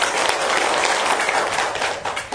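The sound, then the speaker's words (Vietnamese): An audience bursts into a loud, sustained round of applause for the Buddha during a Vietnamese Buddhist dharma talk, with dense, steady clapping that holds its level throughout. “Cho một tràng pháo tay rất lớn.”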